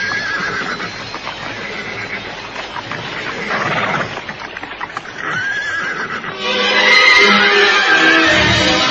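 Cavalry horses neigh and whinny near a riverbank, loud rough calls mixed with clopping hooves, growing louder and brighter toward the end.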